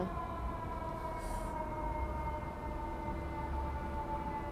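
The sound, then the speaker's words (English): A siren sounds continuously, a sustained wail of steady layered tones over a low rumble, holding at an even level throughout with no voices. “Sound of sirens. The sound of sirens.”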